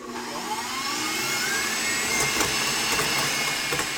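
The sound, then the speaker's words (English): Egg yolks being whisked with sugar until they form a ribbon, producing a steady, loud whirring drone with a faint rising whine that runs unbroken throughout. “whip this until it forms a ribbon. So the egg yolks will get nice and yellow, a very, very kind of sunny color when they whisk with the sugar”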